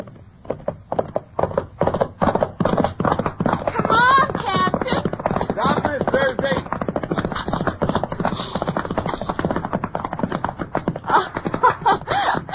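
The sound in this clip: Horse hooves pound at a gallop as riders head out across a mesa on an escorted inspection ride, a dense, driving rhythm of loud thuds that runs unbroken from start to finish.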